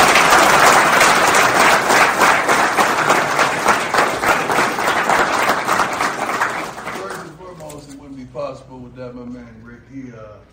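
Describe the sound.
Loud, sustained crowd applause welcomes Colorado's new head football coach. Dense clapping runs for about seven seconds, then fades as a man starts speaking.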